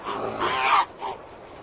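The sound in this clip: Harsh, rasping calls of Arctic skuas attacking a polar bear near a bird colony: a few noisy bursts, the loudest in the middle, over a steady rushing background.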